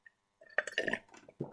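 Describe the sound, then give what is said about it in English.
Clinking of a Coruscant Guard coffee mug: one faint tap, then a brief cluster of sharp clinks with a bright ringing tone, followed by a duller knock. “And I do have my Coruscant Guard coffee mug that sounds like this.”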